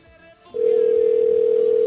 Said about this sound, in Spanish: Vamos a ver si nos contesta. Híjole, qué suerte, ¿eh? Está sonando.